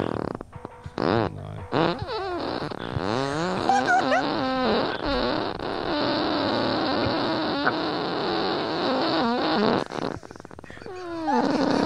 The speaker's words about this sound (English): I can fart for 34 seconds.